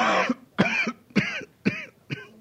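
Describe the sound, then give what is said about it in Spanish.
A worsening cough: five harsh, throaty coughs spaced about half a second apart in a steady rhythm, loud and alone without talk. “Anda peor de la tos”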